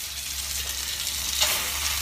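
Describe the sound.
Chicken sizzles as it fries in a pan: a steady, crackling hiss that runs the whole time, with a brief louder spurt of spitting near the end.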